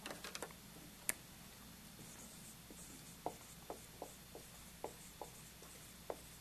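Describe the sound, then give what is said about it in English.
Handwriting of a Greek word by a Bible teacher: faint, sparse taps and scratches of a pen, spaced unevenly, with quiet gaps between strokes. “I'll just write that down for you.”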